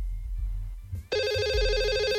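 A telephone rings with an incoming call. After about a second of low background rumble, a bright electronic warbling tone starts abruptly and carries on steadily and loudly to the end, with no voices.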